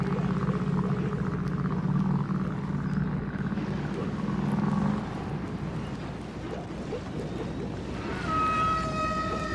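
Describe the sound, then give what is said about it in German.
Humpback whales sing over a deep, rumbling underwater drone. Low moaning tones sound through the first half. Near the end a higher, clear harmonic call rises above the rumble. “Und wer viel Glück hat, der kann sie sogar hören.”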